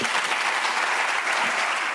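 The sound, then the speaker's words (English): Applause after a woman's speech on Picasso at a public talk by a professor: dense, steady clapping from a large audience that fills the whole stretch at an even loudness, with no voices standing out. “Her speech was applauded, but also criticized.”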